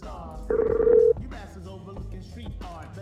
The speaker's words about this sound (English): At least we get the ringing now, right?